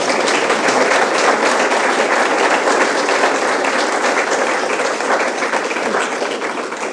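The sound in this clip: An audience applauds to welcome a speaker at a lecture event, a dense, even wash of many hands clapping that holds steady and eases off slightly at the end.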